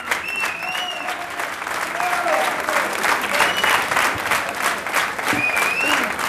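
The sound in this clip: Jazz trio's audience at a club in Reims applauding and calling for an encore, with sustained dense clapping and several shrill whistles rising above it throughout.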